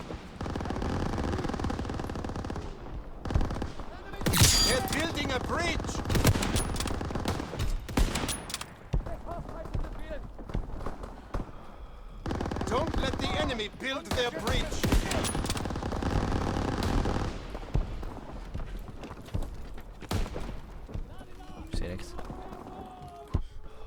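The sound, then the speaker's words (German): Rapid gunfire from a sniper rifle in a video game, with many sharp shots in dense bursts and brief pauses between them. A person talks over the shooting throughout. “Also ich habe das Gefühl, die Sniper, die trifft nur richtig genau.”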